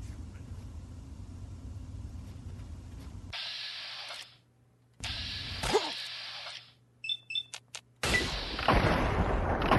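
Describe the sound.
Pistol shots in a video game: a few loud, booming bursts broken by sudden silences, with short clicking ticks in between and rumbling noise around them.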